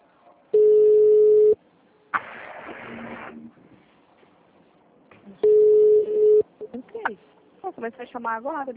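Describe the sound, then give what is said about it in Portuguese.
A telephone call tone as someone calls in: two long, steady, mid-pitched tones, each about a second long and a few seconds apart, with voices talking between and after them. “Não, tem alguém ligando pra alguém. Quem que tá ligando aí?”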